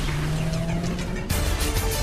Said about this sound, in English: They drive off from the curb.